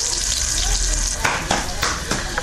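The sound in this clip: Bolani fries in oil in Shahr-e Ara garden with a dense, continuous crackling sizzle and a few brief louder bursts toward the end.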